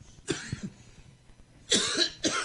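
Coughing during a prayer for healing: a few harsh, breathy coughs, one early burst followed by a quieter pause and then a louder pair of coughs near the end.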